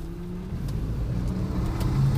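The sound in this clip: A car being driven, its engine and road noise forming a steady low rumble that drones evenly throughout with no voices and grows slightly louder toward the end.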